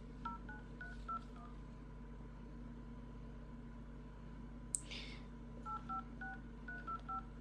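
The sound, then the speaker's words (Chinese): Touch-tone telephone keys beep as a phone number is dialed. Two runs of short, faint paired tones are separated by a pause, with a single sharp click between them. “打个电话，这个号码没错吧？”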